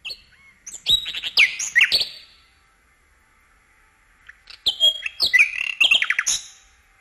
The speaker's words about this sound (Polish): Tomasz Ogrodowczyk, autor nagrań głosów ptaków, które znają Państwo z naszej anteny. Słyszą je Państwo także teraz.